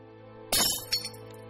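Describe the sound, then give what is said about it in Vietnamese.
A flower vase kicked off a table shatters in one sudden, bright crash of breaking glass, followed a moment later by a smaller clink of falling shards, then quiet. “Đình Duy tức giận, đạp đổ cái bình hoa trên bàn rồi bỏ đi.”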